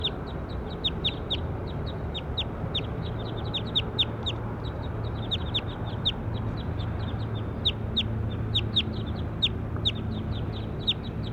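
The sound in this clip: A bird chirps again and again in many short, high, sharp calls that repeat irregularly over a steady, low, noisy background.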